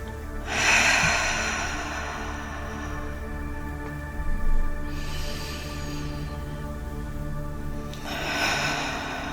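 Deep breaths taken during a guided relaxation: three slow, airy breathing sounds, spaced a few seconds apart, over a soft, steady tonal background.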